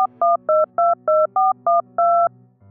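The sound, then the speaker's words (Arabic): Keypad tones from dialing a number on a mobile phone: a quick, even run of short, bright two-pitch beeps, the last held slightly longer, followed by a faint low hum. “طلعت موبايلي بسرعة ودورت على الورقة اللي مكتوب فيها رقم موبايل ياسر وطلبت”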